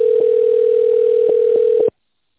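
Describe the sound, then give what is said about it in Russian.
A telephone line tone while a call is transferred to an administrator: a single steady, unbroken mid-pitched tone held for about two seconds, then cut off abruptly into silence. “Вызов переводится на администратора.”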